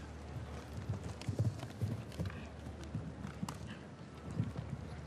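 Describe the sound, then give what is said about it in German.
Hooves of a horse galloping in a cross-country eventing ride toward a combination of jumps, a faint, steady rhythmic drumming beneath constant wind noise. “Hat sein Pferd aber trotzdem noch exzellent gerade gestellt bekommen beim Anritt auf diese Sprungfolge.”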